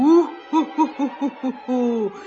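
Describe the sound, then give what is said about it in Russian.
Hooting of a black-eyed forest owl, a tawny owl, in a forest at night: a long opening hoot, five short rhythmic hoots, then a long falling final note, all clear and resonant with no other sounds. “Это кричит черноглазая лесная сова, названная именем сказочной, ненасытной птицы Неясыти.”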